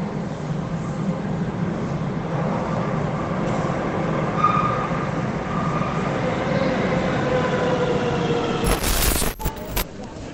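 A train rumbles steadily at a railway station platform, loud and even throughout, then a harsh hissing burst breaks through near the end.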